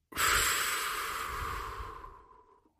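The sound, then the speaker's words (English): A deep breath is let out in a bedtime relaxation setting: one long, airy breath, loud at its start and tapering off slowly to silence. “Now, take a deep breath. Let it out.”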